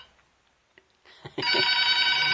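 A telephone rings in a studio booth, starting after a few faint clicks and knocks with a loud, bright, sustained electronic ring that continues to the end.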